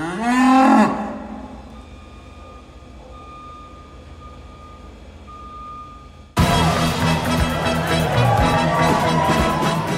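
Cow mooing: one loud, low moo lasting about a second that drops in pitch at its end. Quieter steady tones follow, then an abrupt, loud, dense unrelated sound.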